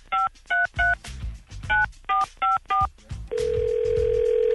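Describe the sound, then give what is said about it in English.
Telephone keypad dialing to call a contest prize winner: seven crisp touch-tone beeps in short, uneven groups, followed by a steady, unbroken line tone that holds to the end. “Let's dial up our grand prize winner and let him know he is the recipient.”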